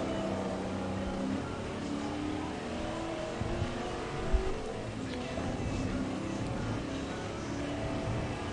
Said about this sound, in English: Better learn how to throw that big car around that corner.